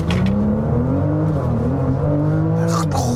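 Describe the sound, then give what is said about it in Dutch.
Hard full-throttle launch-control acceleration of a car with an eight-speed Tiptronic automatic gearbox: a loud, sustained engine roar with a strained tone that holds steady and strong across the whole stretch. “Meteen launch control doen. Rustig dan. Oké. Voet op de rem. Voet op de volgas. Hop, hop, hop. Naar boven.”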